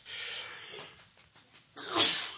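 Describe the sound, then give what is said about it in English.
A single short sneeze: a faint breathy intake, then one sharp burst near the end, heard alone. “Little sneeze this morning.”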